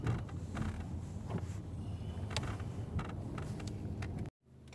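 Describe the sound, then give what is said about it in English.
A car driving, heard from inside, gives a steady low engine and road rumble with scattered faint creaks and ticks, running evenly until it cuts out abruptly near the end. “In case you guys aren't paying attention or understanding, right now I'm out driving.”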